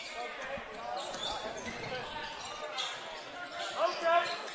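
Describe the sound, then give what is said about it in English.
A basketball is dribbled on a court during a game, its repeated bounces thudding under crowd noise, with voices talking over the action. “trying to dribble around here and drawing a foul there”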